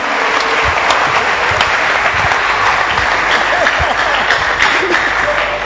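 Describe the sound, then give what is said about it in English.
An audience at a religious healing service clapping hands, a dense and steady burst of applause that runs without pause for the whole stretch at a constant, fairly loud level. “Clap your hands.”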